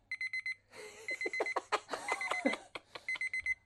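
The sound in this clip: A stopwatch-style kitchen timer goes off after a 3-second countdown: groups of short, high electronic beeps, then a busier melodic chime passage, then more quick beeps at the end.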